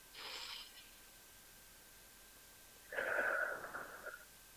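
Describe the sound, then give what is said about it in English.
Faint, airy breaths drawn in through the nose during a guided breathing exercise: a short soft breath, a long pause, then a longer, fuller one. “let's start by taking some nice, just deep cleansing breaths in through the nose.”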